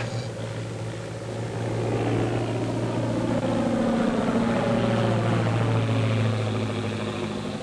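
Motors of an amphibian airplane droning overhead, a steady low hum with a continuous tonal buzz that swells slightly in the middle and holds throughout, with no voices.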